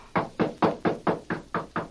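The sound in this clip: Knocking on a door: eight steady, evenly spaced raps, each firm and fairly loud, with no voices over them.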